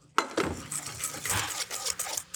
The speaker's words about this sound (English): 45 grams of cornstarch that I will mix with the yolks,